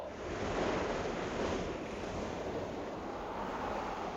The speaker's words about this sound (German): Jetzt kommt das Wasser wieder näher. Ich muss hochkommen, dieser Wind drückt so.